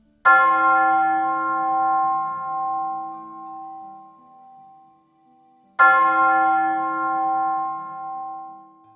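A church bell rings near a house, struck twice several seconds apart. Each strike is loud and bright, with rich overtones that hum and fade slowly through a long decay. No other sounds are heard.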